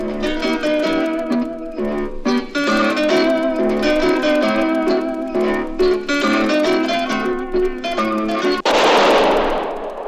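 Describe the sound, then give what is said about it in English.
A single sharp gunshot, the one that kills Harry Lime in a radio drama, bursts out near the end, cutting through plucked string music and leaving a hissing, noisy decay. “That was the shot that killed Harry Lime. He died in a sewer beneath Vienna, as those of you know who saw the movie The Third Man.”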